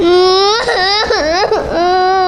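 A young child cries in one loud, sustained wail. The pitch wavers and dips sharply a few times in the middle before it levels out.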